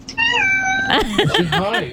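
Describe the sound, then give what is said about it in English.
A cat meows while greeting a delivery driver: a drawn-out, high, tonal meow followed by a few shorter, warbling meows, loud and close together. “A cat that was greeting a delivery driver in the US.”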